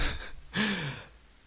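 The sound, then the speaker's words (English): Breathing in and then out: a short, breathy inhale followed by a longer, louder exhale carrying a slight voiced sigh, the whole breath lasting about a second and heard alone. “Inhale. Exhale.”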